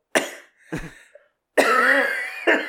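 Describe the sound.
A man in his thirties with a lingering virus coughs: a few harsh, separate coughs with short gaps, then a longer, drawn-out rasping one followed by another sharp burst, with no talking.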